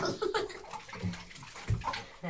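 Water splashing and sloshing as a baby is washed in a bath: a steady run of soft, irregular splashes with a few stronger sloshes, quiet throughout.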